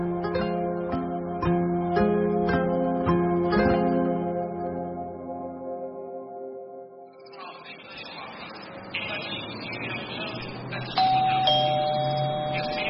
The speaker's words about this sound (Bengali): টিংটং করে দরজার ঘণ্টিটা বাজল।